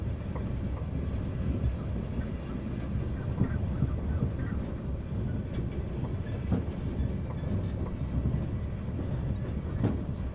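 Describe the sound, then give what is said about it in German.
Inside a moving train bound for Salzburg, a continuous low rumble with rattling and occasional faint clicks from the carriage runs unbroken for the whole stretch, with no voices. “Wieder im Zug nach Salzburg.”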